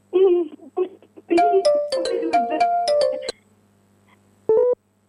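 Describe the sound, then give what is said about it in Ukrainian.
Melodic electronic phone ringtone: a run of clear, steady chiming notes at shifting pitches, then a pause and one more short burst. A brief stretch of voice comes just before the tones. “Бо я почула якийсь дзвінок і злякалася”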